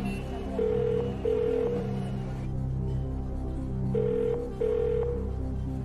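A telephone rings with an incoming call during a quiz show for 20 million, a lifeline call. Two double rings, four short even-pitched tone bursts in pairs, sound over a steady low background hum.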